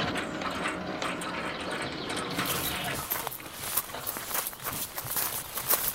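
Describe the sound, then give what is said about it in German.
A gate swinging open in front of a grand house, a steady mechanical whirr that turns brighter midway, layered with ratcheting clicks and light gear-like ticking, fairly loud and with no voices. “Ah, das Tor geht auf.”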